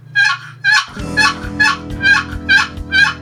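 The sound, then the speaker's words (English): Imitated turkey gobbler yelps, lower and drawn out longer than a hen's: a loud, evenly spaced series of raspy, nasal, honking notes repeating about twice a second over a low steady hum. “it's kind of but a gobbler yelp, it's lower and it's longer. It draws it out.”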